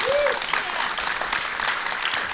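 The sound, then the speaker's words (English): Audience applause at a film festival fundraiser screening, a dense, steady patter of many hands clapping throughout, with a brief whoop or whistle near the start. “I was afraid they weren't going to applaud. They were thinking about it.”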